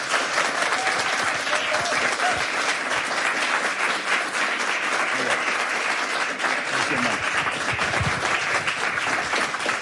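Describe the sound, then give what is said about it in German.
Studio audience applause welcoming an Israeli musician as a guest: a full, dense crowd of clapping that stays steady and strong for nearly ten seconds without letting up. “Und ich bitte um einen großen Applaus für den israelischen Musiker Gidon Carmel”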